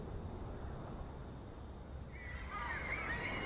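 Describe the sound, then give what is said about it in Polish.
A horse neighs in a video game: a short, shrill whinny rises out of a quiet, low background rumble near the end. “Nie mówcie, że konia znowu stracę. Tylko nie kolejny konik, no proszę.”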